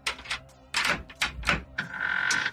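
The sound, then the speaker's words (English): A small bronze key is worked in the lock of an apartment door and the door opens: several sharp clicks and thunks in an uneven rhythm, ending in a steady high squeak. “Madge Forskin put the little bronze key into the lock of the door to her apartment, opened it”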